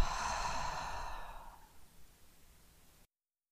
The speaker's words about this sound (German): atme gerne nochmal tief durch die Nase ein, tief und vollständig durch den Mund aus